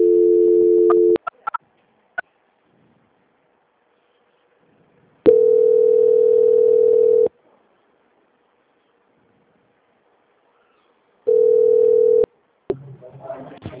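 Telephone ringback tone heard while a call is transferred: a steady mid-pitched tone in three long bursts separated by silence, with a few clicks, then the line picking up with noise at the end.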